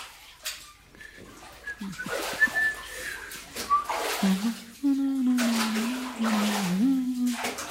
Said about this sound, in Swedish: Och sen, sa syster Lissi, blir man badad så att man luktar gott.